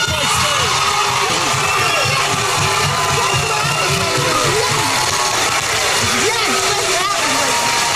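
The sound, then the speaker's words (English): A studio audience boos and jeers as a guest walks on stage at a talk show, a loud, continuous mass of shouting and booing voices that never lets up. “Well, you heard all the boos that greeted Shamika Young as she walked on stage. She ignored the audience's jeers”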